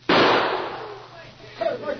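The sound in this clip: A gunshot fires during a tense showdown between two men in a town, shooting a gun out of a man's hand. It is one sharp, loud crack with a long fading tail, and a voice briefly cuts in near the end.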